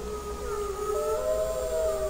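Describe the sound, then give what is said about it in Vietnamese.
A wolf's long, wavering howl, a sustained tonal cry that holds steady and then shifts higher partway through, continuing for the whole clip. “Sói Út khẽ hú lên một tiếng dài, ngẩng đầu nhìn Trắc Một Cường Ba, nước mắt rưng rưng, nghẹn ngào, gầm gừ”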